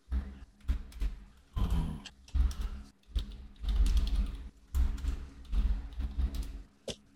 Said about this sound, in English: All right, I typed in Blackguard and it auto-corrected the Black Great Worm.